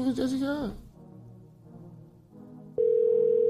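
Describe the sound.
Ringing tone of an outgoing phone call: a steady, even mid-pitched tone starts abruptly and holds to the end, after a brief voice and a quiet pause.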